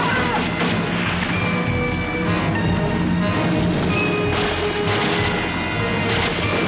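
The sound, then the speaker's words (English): Gunshots fired from a motorboat and from a ship's deck during a struggle with frogmen at sea ring out as loud, dense bursts of gunfire, with a few sharper cracks standing out above a steady, heavy wash of noise. “From a nearby motorboat, shots are fired, and shots are fired from on deck.”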